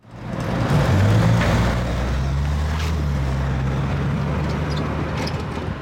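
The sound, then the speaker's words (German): Dense early-morning traffic roar at a city square in Bern, a loud, steady rumble of engines and tyres with low engine hums from passing vehicles. It continues without a break and no voices are heard. “So laut ist es am Berner Europaplatz am frühen Morgen.”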